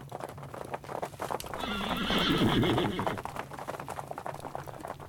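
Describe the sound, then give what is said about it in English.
Cavalry horses approach with steady clip-clopping hoofbeats and a whinny, the noise swelling in the middle before easing slightly. “And then came the sound of more cavalry behind them.”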